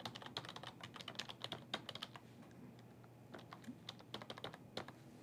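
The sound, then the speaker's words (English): Typing on a computer keyboard as a custom string is entered, many quick, irregular key clicks in rapid bursts, clear and alone without any voices. “I'm also going to connect to the configuration partition. Same deal, we're going to have to type in a custom string.”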